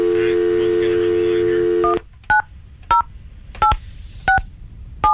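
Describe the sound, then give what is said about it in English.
Telephone tones as a radio host phones a contest winner: a steady dial tone drones for about two seconds, then a series of short, evenly spaced keypad beeps follows, each separated by quiet gaps. “I'm going to attempt to make the phone call here.”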